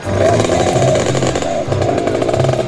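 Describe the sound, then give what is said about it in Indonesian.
A rare old vehicle's engine revs loudly and continuously, with a rough, rattling buzz and slight surges as the throttle is worked. “Gas terus, gas terus. Lo. Ini loh kendaraan langka yang harus dilindungi keberadaannya.”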